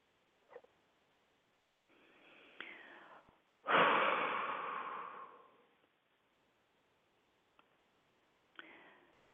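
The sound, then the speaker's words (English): Slow, deep breathing during a guided relaxation exercise: a soft, quiet breath followed by a louder, longer one that fades out, with faint clicks and another light breath at the end. “let's take a few deep breaths together. Deeper, longer.”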